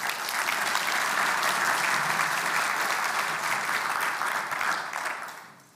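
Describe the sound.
An audience at a church gathering applauds to welcome a speaker, with dense, sustained clapping that stays even for several seconds and then fades out.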